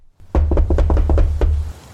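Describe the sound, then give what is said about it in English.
Knocking on a front door: a quick, irregular run of several sharp raps over about a second and a half, loud against a low, steady rumble underneath. “Okay, go ahead and knock on the door.”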